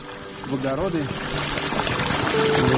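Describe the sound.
Black water pours from a thick pipe at a coal mine in a steady, full rushing gush that grows slightly louder, with a voice speaking over the flow.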